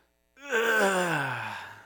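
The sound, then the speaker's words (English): A single groan from a person standing up on a sore knee: one voiced, drawn-out moan of about one and a half seconds that slides gradually downward in pitch and fades, alone in quiet. “ugh. And that is the sound of the sore knee, of the stiff back, of the hip that's just a little out. That is groaning.”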